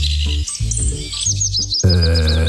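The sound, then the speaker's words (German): Willow warbler song: a quick run of thin, high chirping notes over a steady low tonal hum that continues beneath the bird throughout. “Der Filtes-Laubsänger natürlich. Oh, Mensch. Wow. Filtes-Laubsänger, die klingen so.”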